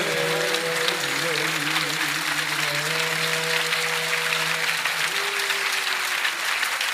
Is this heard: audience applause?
yes